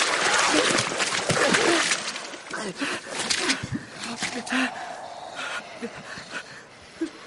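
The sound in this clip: Splashing and sloshing water as someone is pulled out of it: a dense, continuous wash of noise with a few sharper surges near the middle and end.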